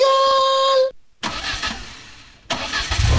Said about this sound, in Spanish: Hay un motor que está por encenderse. Y cuando acelere, nada volverá a sonar igual.